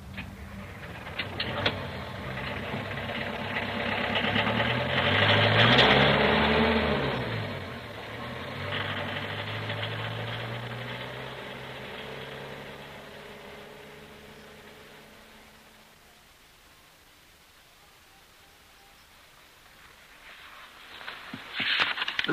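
A car driving away: an engine rumble swells to a peak, then slowly fades to near silence, before another noise builds again at the end.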